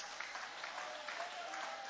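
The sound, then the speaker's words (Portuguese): An audience applauds during a church sermon, a faint, steady patter of many hands clapping that stays even throughout the two seconds. “joga a mão para cima e aplaude esta palavra, levanta a mão e aplaude, levante a mão e aplaude”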